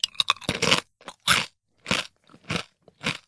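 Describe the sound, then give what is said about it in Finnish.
Crunchy potato chips are eaten in a series of crisp, loud crunches and bites, with short pauses of silence between them and no talk. “Mä aloitan täällä perunasipsillä, koska täällä oli myös pataattia.”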